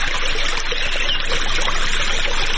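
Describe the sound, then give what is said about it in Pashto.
Irrigation water flows steadily as trees are watered in an autumn orchard in a village south of Ghazni, a constant rushing trickle with no pauses and no voices. “په دغه باغ کې په اوبو لګولو بوختای”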